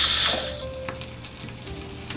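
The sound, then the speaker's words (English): Sizzling of tomatoes frying in a pan: a loud hissing burst at the start settles into a steady, quieter crackle with a few small pops. No one talks. “These need to be fried more. These tomatoes.”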